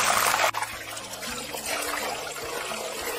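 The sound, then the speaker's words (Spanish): Wet potato pieces frying and spattering in hot oil for a Spanish potato-and-onion omelette, a dense, steady hiss of sizzling with a sharp crackle near the start. “¿sabes que está un poquito mojada? Y por eso están saltando. Va a ser una tortilla de papa con cebolla. Vamos a dejarla que se fría esto bien.”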